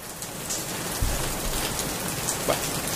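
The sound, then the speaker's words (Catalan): Rain falls as a sound effect: a steady, fairly loud hiss of drops with a few sharper patters. No voices are heard. “Podem fer que plogui una mica,”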